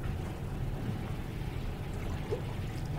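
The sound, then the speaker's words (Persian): Sweet sharbat is poured in a steady, unbroken liquid rush that holds an even level for the whole three seconds. “میخوری شربت؟ بریز ببینم”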